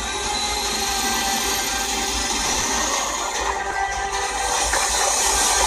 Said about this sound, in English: Hitting it with that blower. Increasing the 100 RPM.